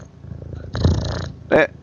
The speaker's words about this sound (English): That's a cat. He's trying to kill the microphone.